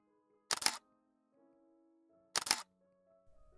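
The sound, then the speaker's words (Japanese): Two camera shutter releases as photos are taken, each a quick, bright mechanical clack about two seconds apart, alone against a faint low hum. “それではちょっと写真を撮らせていただきますね。”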